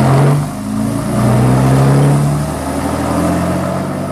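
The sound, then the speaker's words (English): A car's motor runs and revs with a loud, steady, low drone whose pitch wavers up and down, with no voices over it. “The fellow at the wheel didn't look round as we got in. He started the motor.”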